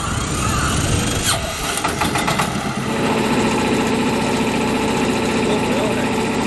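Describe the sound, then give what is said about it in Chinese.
An engine starts up on the quiet surface of Poyang Lake in the early morning, a rough, squealing burst that settles into a steady, mid-pitched idling hum. “早晨七点，静静的鄱阳湖面突然传来一阵机器发动的声音。”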